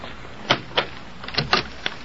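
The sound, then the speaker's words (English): A door being opened, heard as a few quiet clicks and rattles of the latch and handle over a steady hiss, with no voices. “Please open the door.”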